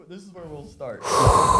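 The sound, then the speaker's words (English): A sharp, loud breath drawn in hot, a rushing breathy inhale that follows a brief stretch of voiced sound and builds in strength to the end. “There's only one thing left to do, and that is inhale a hot breath.”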